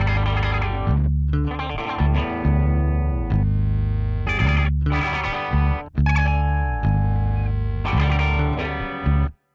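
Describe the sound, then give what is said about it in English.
Noisy electric guitar played through effect pedals with every knob turned all the way up. Loud, heavily distorted, chorus-laden chords come in sustained bursts separated by brief cutoffs, ending abruptly. “I basically turned up all the knobs on my effect boxes and did a couple noisy guitar parts.”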